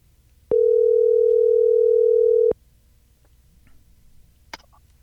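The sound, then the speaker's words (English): A telephone dial tone sounds as a loud, steady single pitch for about two seconds, then cuts off, leaving faint scattered clicks and one sharp click. “Our next guest, let me dial.”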